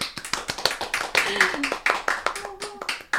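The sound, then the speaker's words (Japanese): Applause from a small studio audience at a live recording session, a scattering of sharp, uneven hand claps that come in quick, irregular bursts while voices talk. “はい、公開収録疑問系、はい、 ギャラリー拍手”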